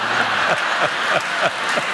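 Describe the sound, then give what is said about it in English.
Studio audience applause and cheering, a continuous wash of clapping with a few whooping voices rising out of it at intervals. “The salon's Roomba, clearly, you're all cheering for the Roomba.”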